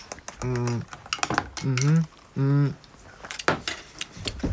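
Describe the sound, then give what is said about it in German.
A metal spoon clinks repeatedly against a cup while stirring a sweet, honeyed drink that is warm on top and cold below, making many quick, bright, irregular taps. “Ich glaube, man muss es umrühren. Sonst kann ich es noch nicht so richtig schmecken, weil das irritiert mich alleine, dass es oben warm ist und unten kalt. Danke. Dankeschön für die Löffel an Colin.”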